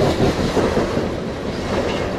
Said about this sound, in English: I still don't see the end of this train. It's incredible. It must be well over 100 cars.